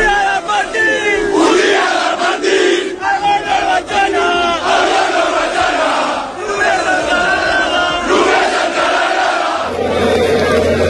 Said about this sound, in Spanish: Eran sonidos de la fiesta de anoche